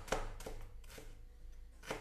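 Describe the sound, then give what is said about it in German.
A knife chops leftover onion pieces on a board while making pea and coconut soup: a few crisp, separate taps with uneven gaps between them, fairly quiet. “Und habe ich hier noch ein paar restliche Zwiebelstückchen noch vom Frühstück können wir auch gleich klein dazu schneiden.”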